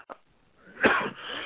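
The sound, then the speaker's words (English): A single harsh cough comes from someone with a dry throat. It is a short, rough burst followed by a breathy, wheezy tail, after a faint catch of breath. “I don't mean to be coughing in everybody's ears over here.”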